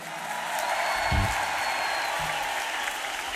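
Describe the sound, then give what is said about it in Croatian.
Audience applause at a concert: dense, steady clapping from many hands that holds at an even level throughout without a break. “Jedan veliki aplauz za srednju generaciju.”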